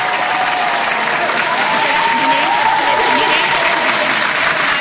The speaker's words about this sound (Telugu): చప్పట్లు మోగిపోయాయి నా చేతులు, ఇక్కడే ఉన్నాయి చప్పట్లు మోగిపోయాయి.